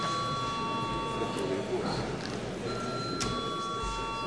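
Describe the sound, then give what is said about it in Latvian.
A steady electric bell rings in a parliament chamber to call members to register their votes. The ringing holds almost throughout, breaking briefly partway, over a faint background murmur. “Lūdzu zvanu reģistrācijai.”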